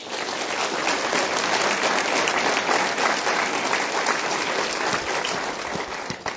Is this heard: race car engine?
no